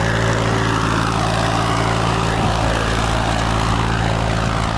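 A tractor ploughs a wide green field being prepared for planting cotton. Its engine drones loud and steady throughout with a low, throbbing hum and no voices.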